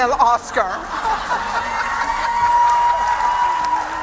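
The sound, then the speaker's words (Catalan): Women in an audience shouting and cheering together, a dense, sustained crowd roar mixed with some applause that holds steady throughout. “Les dones de la sala, si us plau, crideu. Volem l'Anna, un Oscar femení.”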